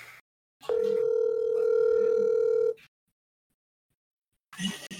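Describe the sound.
A phone call being placed to a dad gives a single steady ringback tone about two seconds long, a flat buzzing pitch, followed by silence and a brief snatch of sound at the end.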